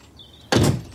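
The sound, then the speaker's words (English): A front door shuts with a single broad, muffled thump about halfway through, followed by a brief fading rush over a quiet background. “Frost lets himself out the front door.”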